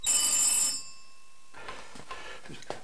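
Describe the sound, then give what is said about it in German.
A telephone rings in a radio play: a bright, loud electronic ringing burst lasts under a second, then cuts to silence, followed by a few faint knocks and rustles. “Das Telefon klingelt.”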